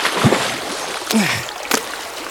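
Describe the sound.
Water splashes as someone slips and falls in: a few sharp bursts of splashing and sloshing stand out over a steady, noisy watery background.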